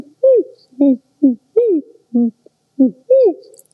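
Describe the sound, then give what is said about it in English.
A barred owl hoots in the daytime: a loud series of seven deep, rhythmic hoots, several with a downward-curving inflection, ringing out clearly between pauses of silence. “And the barred owl is also during the daytime. That's one of the few owl sounds you could hear during the day.”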